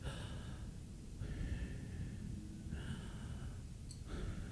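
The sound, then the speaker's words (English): Slow breathing in and out, with a few long, airy breaths that alternate steadily at an even, unhurried pace, with no talking. “the way to actually say it is through breathing.”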